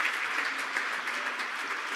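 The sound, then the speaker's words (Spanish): Applause for a young woman visiting from Bayamón: steady, dense clapping from a group that fills the whole two seconds at an even loudness, with no talk over it. “Un aplauso a esta joven que viene de Bayamón”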